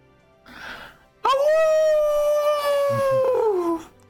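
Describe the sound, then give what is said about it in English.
A human voice imitates a long, low wolf howl: one sustained, tonal wail lasting about two and a half seconds, holding steady before sliding lower and fading at the end. “You let out a long, low howl.”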